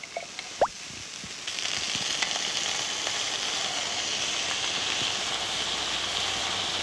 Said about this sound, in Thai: พอใส่กะทิลงไปนะคุณผู้ชมก็เบาไฟค่ะเพราะว่าเราไม่อยากให้แตกมัน